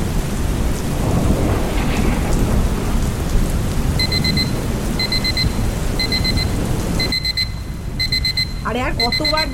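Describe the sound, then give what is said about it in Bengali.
An alarm clock rings in repeated bursts of high electronic beeping, steady pairs at first and then a quicker run, over constant heavy rain and thunder rumble, with a voice briefly at the end. “Please অ্যালার্মটা তো বন্ধ কর”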